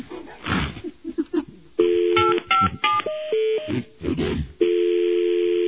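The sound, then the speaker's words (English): Telephone keypad dialing tones: a quick run of steady electronic beeps at differing pitches, ending in one long sustained tone, preceded by a stretch of rough, noisy sound. “Tough to dial the numbers with those big claws.”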